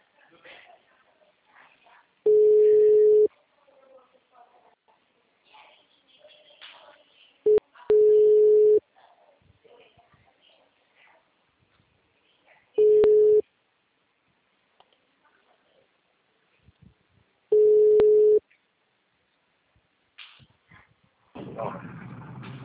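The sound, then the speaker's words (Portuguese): A telephone busy tone sounds after a dropped call: a few steady, low-pitched beeps separated by long, uneven gaps of quiet line noise, followed by a louder rush of noise at the very end. “A ligação caiu.”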